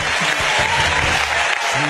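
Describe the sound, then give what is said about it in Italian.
Audience applause, dense and continuous at a steady, fairly loud level, with a voice talking underneath. “E questi che applaudono, l'applauso sotto”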